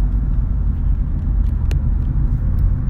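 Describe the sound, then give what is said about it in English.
A car travels along a highway, leaving North Houston on Interstate 45, with a steady, loud, low road rumble and engine drone throughout and no voices. “Right now, I'm riding on 45, leaving North Houston. So I don't know if you're going to be able to hear me ask clear.”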